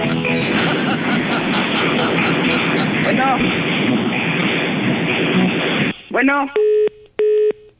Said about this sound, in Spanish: Pero a ver, le estamos marcando a ver si contesta.